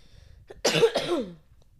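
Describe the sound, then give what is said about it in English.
A short, harsh cough from someone who is unwell bursts out twice in quick succession, moderately loud and alone, with quiet background before and after. “I'm going to have to be cutting this a lot, because I'm coughing like”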